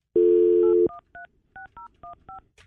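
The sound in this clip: Phone number being dialled on a keypad to call a boarding school: a steady dial tone, then six short, evenly spaced beeps of differing pitch, alone and clear.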